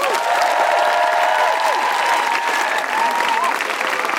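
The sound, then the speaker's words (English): An audience applauds to welcome guests onto the stage at a live feminist comedy show. The clapping is loud and sustained throughout, with whooping voices rising over it. “Please put your hands together and make an enormous Guilty Feminist welcome for Aloysius and Doris.”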